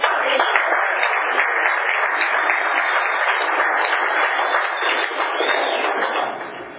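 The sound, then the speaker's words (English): A Tulare County audience applauds to welcome a warm-up speaker, a dense, steady burst of many hands clapping at even loudness that fades slightly at the end. “Okay, let's give a rousing Tulare County welcome for our warm-up speaker, Randy.”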